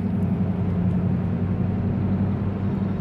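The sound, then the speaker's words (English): A car drives onto a mountain highway in light morning traffic while accelerating to about 50 mph, giving a steady low engine and road rumble throughout with no talking. “As I accelerate to 50 miles per hour, putting my turn signal on to merge into the very light traffic this morning.”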